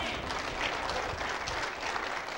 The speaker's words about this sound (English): So if indeed you would welcome these folks into membership this morning, say a hearty amen and applaud.